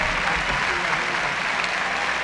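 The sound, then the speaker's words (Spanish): Applause welcomes an orchestra conductor in Veracruz: a continuous, loud wash of many hands clapping at an even level from start to finish. “primero la invitación a que aparezca, y con él la bienvenida de un aplauso”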